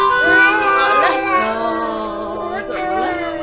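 An infant cries in continuous, wavering wails that stay fairly steady in loudness throughout.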